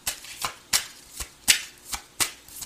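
Tarot cards are shuffled in a steady run of crisp, papery riffling bursts that repeat at an even rhythm, with no talk over them.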